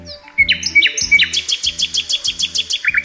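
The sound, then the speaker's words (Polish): A nightingale sings a quick, rhythmic run of high, clear notes. It opens with a few whistled slurs, then settles into a steady train of short, repeated pulses. “Słowik? Tak jest. To właśnie słowik.”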